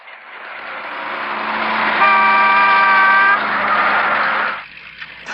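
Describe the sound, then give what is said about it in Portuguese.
A vehicle horn blares in one long sustained blast of about four seconds in a dubbed film scene where a truck swerves past a car driving on the wrong side of the road. The tone is loud and steady, swells in the middle, then cuts off. “Ainda bem que o caminhão desviou!”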